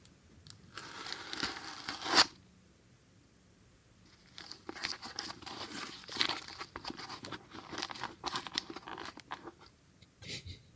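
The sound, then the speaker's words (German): Adhesive tape peeled off and pressed back onto a cardboard-box pinhole camera, used as its shutter: a quiet, sharp tearing rip, then a longer stretch of soft crinkling and rustling handling noise ending in a brief scrape. “die Audiodatei enthält das Shutter öffnen, also Verschluss öffnen, also known as Klebeband abziehen, sowie das Shutter schließen,”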